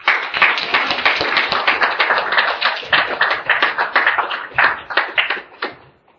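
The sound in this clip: An audience at a recovery group meeting applauds to welcome a speaker: dense, brisk clapping from many hands holds steady for about six seconds, then thins out and stops.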